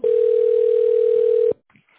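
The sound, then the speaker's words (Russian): A company's automated phone line plays a steady, single-pitch signal tone after its greeting, before an extension is dialed. The tone holds loud and even for about a second and a half, then cuts off to near silence. “После сигнала наберите добавочный номер абонента или дождитесь ответа оператора.”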